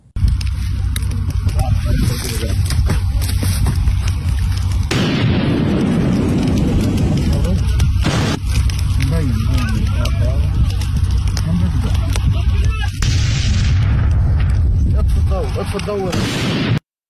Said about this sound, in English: People went through his social media and they found videos like this where he appears to be throwing some kind of pipe bomb around.